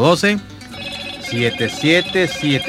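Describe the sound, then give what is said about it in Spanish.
A telephone rings with an incoming call to a radio call-in line, a steady electronic ringing that runs beneath someone talking over it. “ya te vamos a atender la llamada, espérate un momentico.”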